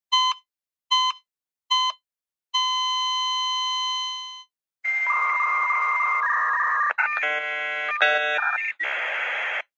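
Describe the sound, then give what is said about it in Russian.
A frantic dial-up modem shrieks and warbles, its harsh tones stepping and buzzing for about five seconds. Before it come three short beeps and a long, flat electronic tone like a fading heart monitor. “В звуки затихающего кардиомонитора ворвалась трескотня бешеного диалап-модема.”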